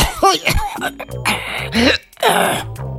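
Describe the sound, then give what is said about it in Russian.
A man coughs and clears his throat after spraying a whole cloud of cologne over himself from an atomizer: several loud, rough, voiced bursts with short pauses between them. “Он выдавил на себя из пульверизатора целое облако одеколона «Гол» и закашлялся.”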